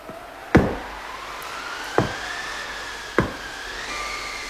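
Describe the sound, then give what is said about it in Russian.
Three sharp, spaced knocks strike a door, each a hard, dull thud. A thin whistling tone drifts steadily underneath. “Кто-то стучится к нам. Слышишь, Краснозорька?”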